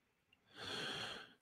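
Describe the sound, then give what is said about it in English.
A single deep breath, a soft airy rush lasting about a second, quiet and heard alone. “Take a breath, the rarefied air of heaven. Be refreshed.”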